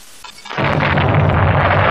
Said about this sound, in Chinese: 是敌人乱打炮。坏了，绳子给打断了一股。